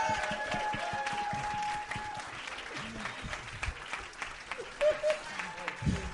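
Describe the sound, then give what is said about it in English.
A live show audience applauds loudly, with steady clapping and crowd noise throughout and a few voices audible among it. “Everybody make a lot of noise for Sam Talent.”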